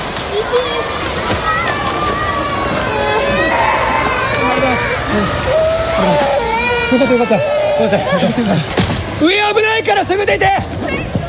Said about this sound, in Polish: Na nagraniu ze środka budynku słychać panikę oraz płacz dzieci będących w środku.